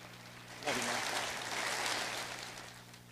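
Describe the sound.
A church audience at Memphis Sycamore View applauds to welcome a guest preacher, a sudden burst of many hands clapping that holds steady as a dense wash of sound, then slowly fades.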